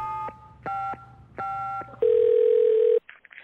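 Telephone tones while calling friends: three short tone bursts, then one longer steady tone lasting about a second, followed by a few brief faint blips.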